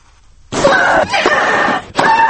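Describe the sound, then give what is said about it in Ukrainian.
Loud, harsh shrieking grunts from a female tennis player during a match at Wimbledon: a few long, high-pitched screams in quick succession with brief gaps between them and no talk. “стогони й крики спортсменів під час гри на кортах”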